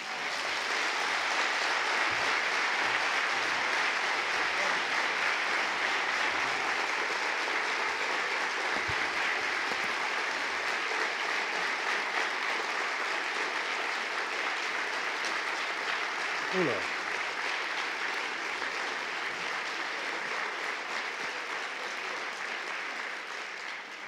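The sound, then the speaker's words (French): A sustained ovation from the audience at a French-language literary event honouring an African woman writer: dense, steady clapping that holds at an even level throughout the long stretch, easing only slightly near the end. “il faut revenir de temps en temps, hein, parce que avec une telle ovation”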